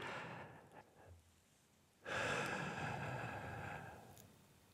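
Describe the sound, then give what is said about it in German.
Slow, audible breaths during a breathing exercise: a fading breath at the start, a quiet pause, then a louder, long airy breath that lasts about two seconds before easing off. “eins, zwei, drei, vier einatmen, eins, zwei, drei, mhm. vier Sekunden warten und eins, zwei, drei, vier Sekunden ausatmen.”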